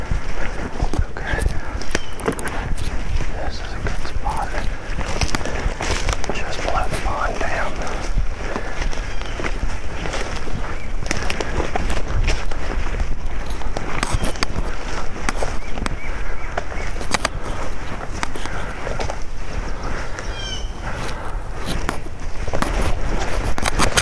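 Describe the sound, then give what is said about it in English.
Footsteps of a hunter moving through the woods to set up a hunting spot: steady crunching and rustling steps over brush for the whole stretch, with a voice speaking at times over them. “the audio of me moving through the woods to set up spot number 3 of this hunt”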